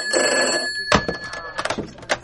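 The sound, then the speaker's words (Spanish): An electronic telephone ring signals a second incoming call: a short, steady, high tonal burst lasting under a second, followed by quieter, broken sounds. “Aguarda, tengo otra llamada.”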